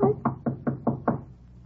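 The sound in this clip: Six even raps of a knock at a door come in a quick, steady rhythm, each one a dull, low thud. Quiet follows the last knock.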